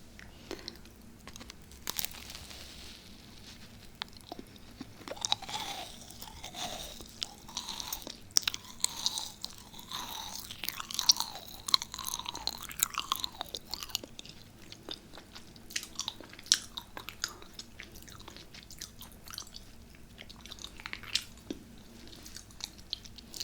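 Close, quiet chewing of a crunchy vanilla macaron: many crisp crunches, clicks and soft wet mouth sounds in an irregular stream, busiest through the middle and sparser toward the end.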